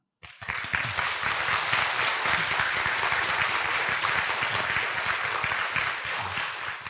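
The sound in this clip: Audience applause breaks out suddenly and holds as a full, dense roar of clapping, staying loud and even until the end.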